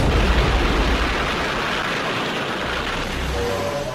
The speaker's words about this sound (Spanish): El 5 de junio en un campo de pruebas nucleares en Nevada, Estados Unidos, se detona desde una torre la bomba atómica.